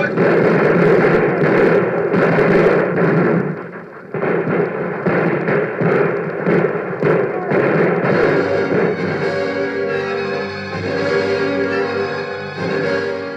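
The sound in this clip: Gunfire and explosions in a Spanish-language radio drama battle by a river, a dense, continuous barrage of bursts and booms with shouted voices, staying loud throughout the stretch.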